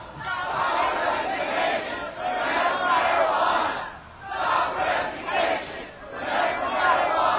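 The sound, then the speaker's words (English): A crowd chants a protest slogan in unison, calling for an end to arrests of medical marijuana patients. Loud, rhythmic phrases of many voices shouting together repeat several times, with short dips between each round. “I want everybody standing here to start shouting in unison with me.”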